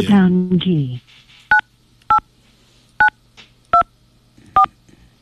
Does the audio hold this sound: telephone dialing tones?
yes